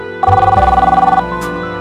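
A telephone bell rings once, a loud, rapid, trilling burst of about a second that stops abruptly, leaving a faint low hum.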